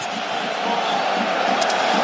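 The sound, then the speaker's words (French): Arsenal supporters cheer in a football stadium around a last corner for their team: a dense, continuous crowd roar that swells a little early on and then stays loud and steady throughout. “Oh, les supporters d'Arsenal qui exultent.”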